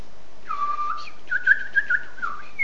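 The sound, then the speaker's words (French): A person whistles in imitation of little birds, with high, thin notes that slide and flutter in short chirping phrases and quick accents, heard alone without talk. “Avec les petits oiseaux.”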